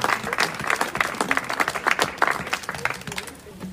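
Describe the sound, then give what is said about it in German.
Audience applause at an evening gathering after live musical accompaniment: a steady, dense patter of many hands clapping at an even level throughout. “Nochmal ein extra Applaus.”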